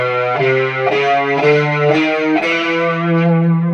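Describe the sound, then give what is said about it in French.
A distorted bass guitar plays a chromatic rising line: about seven short, evenly spaced notes step steadily upward in pitch, loud and gritty with a thick effected tone. “écoutez, la basse va faire ça.”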